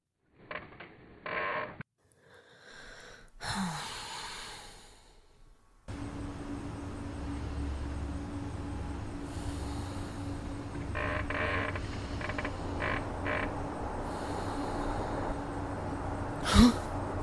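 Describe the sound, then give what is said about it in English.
A hotel air conditioner runs as a constant droning hum with a steady hiss, after a few brief scattered knocks and rustles at the start. “What in hell is that? Hotel air conditioners, man.”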